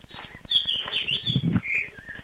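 Bird chirping: a steady run of high, bright twittering calls lasting about two seconds, fairly loud, with no talk.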